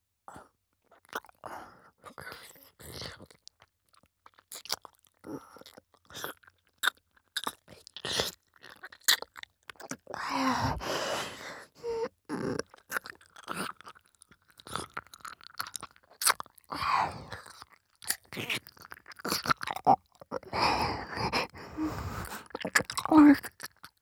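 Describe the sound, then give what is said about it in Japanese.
Gentle, playful nibbling and biting without any eating: many soft, close mouth clicks and light crunchy snaps in an irregular rhythm, fairly quiet throughout. “本当に食べたりしないよ。甘噛みしてるだけで楽しい。”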